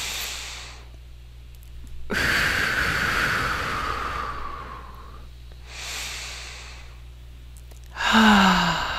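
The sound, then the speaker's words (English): Slow deep breaths drawn in through the nose and let out through the mouth during a guided relaxation exercise, with long, soft, airy exhalations rising and fading in a few unhurried cycles, with no talking. “let's take two nice deep breaths in through the nose and out through the mouth.”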